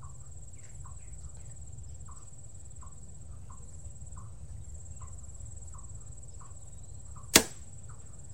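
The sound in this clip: An arrow strikes an archery target with a single sharp, loud smack near the end, set against faint, regular insect chirping that pulses steadily throughout.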